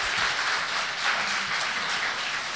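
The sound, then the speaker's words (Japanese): A church audience claps for Jesus: sustained, dense applause from many hands, even and steady without a break. “そして私たちのイエス様にもう一度栄光を期した大きな拍手をあげましょうか。”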